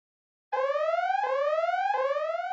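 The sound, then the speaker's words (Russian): A ship's alarm signal sounds through the vessel's compartments: a loud, harmonically rich electronic whoop that sweeps upward in pitch, repeating about three times in a steady cycle after a brief silence. “Наладившееся было благодушное настроение развеял разнесшийся по отсекам корабля сигнал тревоги.”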